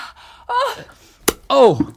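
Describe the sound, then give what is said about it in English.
A comedic sound effect of an eyeball being squeezed out of a skull: a single sharp, brief pop set between a person's strained gasps and groans. “Oh, that was my eyeball. Oh, my skull has just squeezed my eyeball out.”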